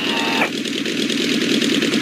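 Aircraft engines throttled back on a landing approach: a loud, steady mechanical drone that changes tone early on, then continues evenly.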